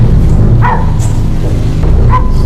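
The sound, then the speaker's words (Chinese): A dog barks a few short times over loud, steady background noise. “怎么了？ 哪儿来的狗叫声？”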